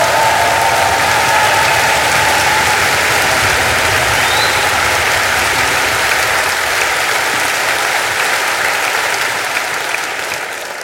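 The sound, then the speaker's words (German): A concert audience in Dresden applauds, a loud, steady wash of many clapping hands that holds throughout and eases slightly toward the end. “Geben Sie einen riesen Dresdner Applaus für Jean Travagatako!”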